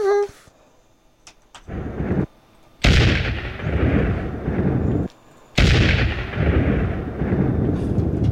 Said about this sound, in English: We're doing blasting right now